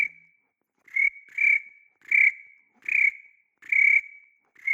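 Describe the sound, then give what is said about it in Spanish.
A cricket chirps in a steady series of bright, high, whistle-like trills, each short burst followed by a brief pause, sounding alone without any voices. “El grillo, el grillo.”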